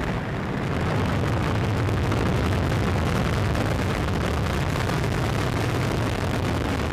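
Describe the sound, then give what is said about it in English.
A United Launch Alliance Atlas V rocket with an RD-180 engine lifts off on the NRO-L61 reconnaissance mission, giving a deep, loud, unbroken roar that stays at full strength throughout. “3, 2, we have RD-180 ignition and we have liftoff of the United Launch Alliance Atlas V rocket carrying the NRO-L61 mission for the National Reconnaissance Office.”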